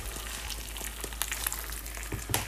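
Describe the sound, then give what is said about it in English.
Two eggs frying in a pan, a soft, steady sizzle with a few sharp crackles and pops, heard alone without voices. “Okay, I'm gonna crack another one. Two eggs going in.”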